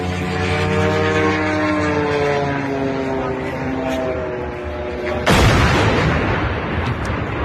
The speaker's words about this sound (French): Ça, c'est le son d'un drone qui percute une grue de chantier.